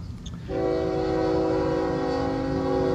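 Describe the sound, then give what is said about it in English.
A passing train blasts its air horns, a loud sustained chord that starts suddenly over a low rumble and holds steady to the end. “Yeah, here comes, can hear the train. Here comes the 338.”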